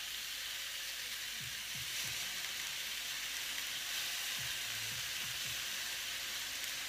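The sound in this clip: Vegetables frying in a pan after salt and lemon juice are added, giving a faint, steady sizzle and hiss with a few soft low knocks from the pan, no voices.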